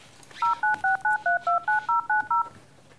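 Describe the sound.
Telephone keypad tones as a number is dialed to place a call: ten short, evenly spaced dual-tone beeps in a steady rhythm, clear and alone with no talk.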